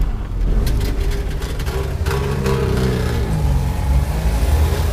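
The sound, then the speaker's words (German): A Trabant car engine runs continuously with a loud, rattling, buzzy drone. A low hum sits beneath it and shifts slightly in pitch, with no voices. “Ja, es ist der Trabi. Es war der Trabi. Hey, aber nicht so weit wegfahren,”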